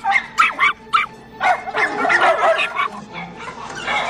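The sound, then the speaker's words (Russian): A terrier and a St. Bernard puppy bark at each other face to face: many quick, sharp barks and high yips, some overlapping, running the whole time with brief whimpering notes between bursts. “терьер подходит к клетке со щенком сенбернара. Стоя друг напротив друга, они лают.”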